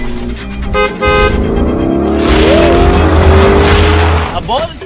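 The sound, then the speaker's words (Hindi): A two-seater sports car accelerating hard in a 0-to-100 race: engine roar and squealing tires stay loud and steady throughout. “अबे ये two seater unpractical car इसलिए ली है ताकि लड़कियां घुमा सकूं। तेरी तरह एनसीआर में हवाबाजी नहीं करता। चल फिर आजा। 0 to 100 करके तुझे धूल चटाता हूँ।”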